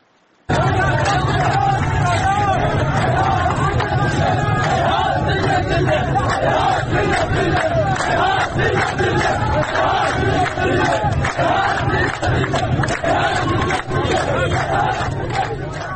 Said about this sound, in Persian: یکی از ویدیوها نشون میده مردم معترض مقابل منزل و دفتر قاسم ساعدی، نماینده دشت آزادگان، تجمع کردند و شعار هیهات من نزل سر میدن. ما هم بشنویم این صدا.